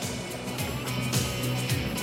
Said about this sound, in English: A truck drives over the brow of a hill on a desert road, with Earl driving and Grady beside him.